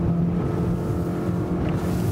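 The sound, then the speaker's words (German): A motorboat's engine roars at high speed in a loud, steady, dense drone that holds throughout. “muss das Motorboot jetzt so schnell, aber auch so sicher wie möglich einholen und stoppen.”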